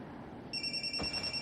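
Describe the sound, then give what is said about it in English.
A mobile phone rings in a cabin on a snowy morning. After a short quiet stretch, a steady, high-pitched electronic ringtone starts abruptly and holds at a moderate level. “Julia looks at her phone. Seeing Gavin's name, she picks up the phone.”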